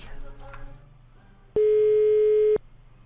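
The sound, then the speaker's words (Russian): A single steady telephone tone lasting about a second sounds while a call is being placed, loud and even, following a stretch of people talking. “Сейчас звоню Панину”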